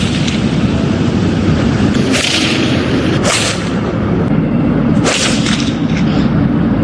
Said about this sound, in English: this is what it sounds like when they're hitting the balls.